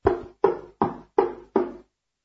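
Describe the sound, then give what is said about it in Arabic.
Knocking on a cottage door: five firm, evenly spaced knocks, each with a quick sharp attack and short decay, heard alone with nothing in between. “ثم ذهبت إلى كوخ الأقزام السبعة وطرقت الباب”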